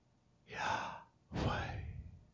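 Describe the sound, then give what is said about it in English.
A slow, soft breath drawn in, then after a short pause a longer, airy breath let out, demonstrating a calm in-and-out breathing exercise with no other sound. “I want you to breathe in on Yah and out on way. Here's what it sounds like.”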